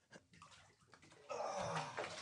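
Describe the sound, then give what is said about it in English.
Water sloshing as a person gets into the warm salt water of a float tank. Faint soft movements come first, then a steady, louder swishing and splashing takes over for the second half. “Okay, I'm getting in. The water feels good.”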